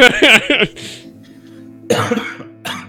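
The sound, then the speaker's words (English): A cough fit voiced for a badly wounded general in a tabletop role-play, with a tight cluster of harsh coughs, a short pause, then another ragged run of coughs. “Kinsley at this point, kind of goes into somewhat of a coughing fit”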